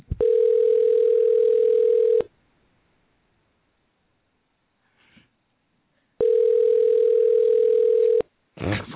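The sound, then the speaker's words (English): A steady, single-pitched telephone tone sounds while a pizza shop is being called. Two loud tones of about two seconds each are separated by a long silence, followed by a brief burst of noise. “Here we go. We're dialing up Jerusalem Kosher Pizza.”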